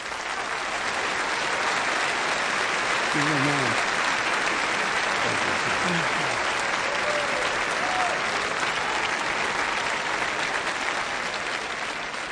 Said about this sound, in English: So please welcome back with me, with a round of happy applause, somebody so special, Tony Campalo.